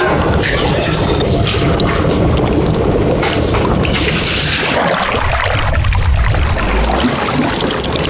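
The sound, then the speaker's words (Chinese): Running water rinsing food until the water runs clear, a loud, continuous rushing and splashing hiss that holds steady throughout with no pauses. “然后用活水给它把这水都冲掉，冲到这个水清亮了。”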